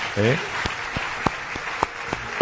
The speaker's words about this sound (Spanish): Pido un aplauso para Ballesta, por favor, uno de los más grandes